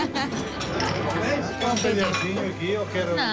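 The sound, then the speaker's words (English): Fast knife work on fresh pork sausage served with bread, cheese and spicy sauce brings bright metallic clinks and taps of cutlery and dishes, heard under steady chatter and talking voices. “Fresh pork sausage. And a cheese. And a spicy sauce. Spicy sauce. And cut in a very specific way. Wow, I look at fast knife work.”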